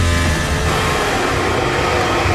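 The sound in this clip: Formula 1 car driving past: a loud, sustained engine roar with a thick, noisy rumble that stays steady throughout, with no clear rise or fall in pitch.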